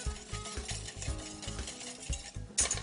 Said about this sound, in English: So now I'm gonna add that mixture right back to my cream. Give that a nice little mix.